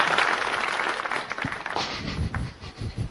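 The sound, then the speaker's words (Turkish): Weak applause from a studio audience at a radio program, a dense patter of clapping that thins and dips unevenly toward the end. “Niye zayıf alkış oldu? Ben gidince esas alkış kopacak.”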